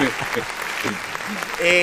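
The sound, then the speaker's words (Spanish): An audience applauds with a dense, steady clatter of clapping that lasts the whole moment, while a voice speaks over it. “sabe que se ganó los aplausos de la gente”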